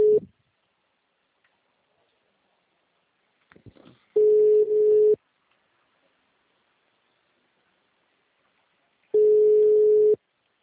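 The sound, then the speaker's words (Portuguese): A telephone busy signal: a steady mid-pitched tone sounding in roughly one-second bursts with long silent gaps between them. There are three bursts in all, and the first is cut short at the start. “Tenta ligar para ela. O número está ocupado.”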